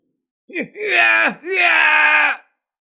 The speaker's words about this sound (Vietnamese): Nam nhân tóc tím kêu to, giãy giụa mãnh liệt, chân mày đều dựng ngược cả lên.